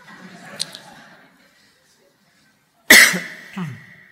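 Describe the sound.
A sudden loud, harsh cough after a quiet pause, followed moments later by a shorter, rough throaty rasp. Faint low murmuring comes before it.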